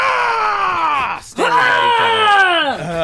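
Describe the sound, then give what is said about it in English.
Voices imitating a barbarian scream like those in The Norsemen: loud, drawn-out yells whose pitch slides downward, broken by a brief gap, then rising into another long cry. “if you watch The Norsemen, there are multiple scenes of people just screaming. including one climactic moment when two characters just go,”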